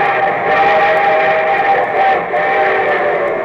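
A train sound effect with a steam whistle: a loud, sustained chord-like blast that holds steadily through the whole clip with only a slight dip midway.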